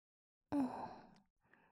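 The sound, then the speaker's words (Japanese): Gentle breathy blowing into a listener's ear: one soft exhale lasting under a second, then a fainter short puff, quiet and with no speech. “お耳ふうふう、気持ちいいです。”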